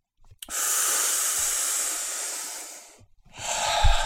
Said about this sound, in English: Let's do three more breaths. One.